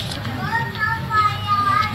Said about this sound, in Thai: นั่นเสียงเด็กอ่อนมา